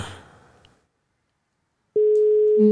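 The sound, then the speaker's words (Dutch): A telephone ringing tone sounds as a call is placed and the callers wait for an answer. Faint noise fades into silence, then a steady electronic tone starts abruptly and holds, with a second, lower tone joining near the end. “Ja, wachten tot hij opneemt.”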